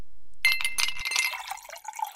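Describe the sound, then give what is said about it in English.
Cool water poured into a glass, a bright splashing trickle that begins abruptly and runs for nearly two seconds, thinning toward the end. “What's that? That's the sound of your favorite college mascots pouring a glass of cool, refreshing water.”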